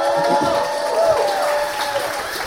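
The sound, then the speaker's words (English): Audience applause welcoming a speaker to the stage, a steady dense wash of clapping and crowd noise that holds at an even level throughout, with a faint sustained tone beneath it. “And so if you would help me welcome Mr. David DeStefano to the stage.”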